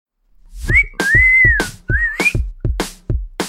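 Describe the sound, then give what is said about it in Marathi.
A person whistles a bright melodic phrase of sliding high notes that rise and fall, over a steady pattern of low rhythmic thumps. “तर आज मी या शिट्टीने सुरुवात केली”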